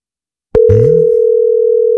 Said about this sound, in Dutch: Ik ga hem eens bellen. Hopelijk neemt hij op.